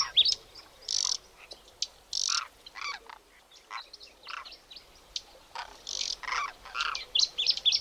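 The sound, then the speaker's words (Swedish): Song of an Arctic warbler: many short, high, buzzy trilled bursts repeated with brief gaps between them, fairly faint over a quiet background. “Oj, där var Nordsångaren igen.”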